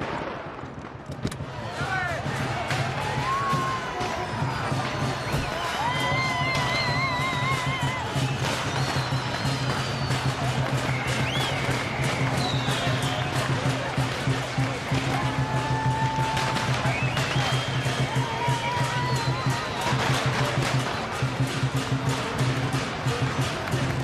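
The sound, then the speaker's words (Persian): A street parade passing by: a dense, steady wash of crowd noise and voices runs throughout, threaded with high whistling tones and scattered sharp cracks or bangs that keep the din loud and busy from start to finish. “این دیگه چه کوفتی؟ ببخشید آقای زی، رژه است.”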